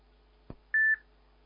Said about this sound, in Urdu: اچھا ٹھیک ہے ٹھیک ہے, میں آپ کی کال بند کر رہا ہوں دعاؤں کے ساتھ.